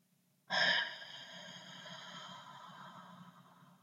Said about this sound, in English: invite you to take a deep breath and swim back up to the surface with me